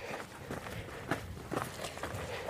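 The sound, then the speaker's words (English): Faint footsteps walk across coal ground in a Welsh desert, the surface sinking slightly and squidgy underfoot. The steps are soft, irregular crunches repeated a few times. “We're walking on coal right now.”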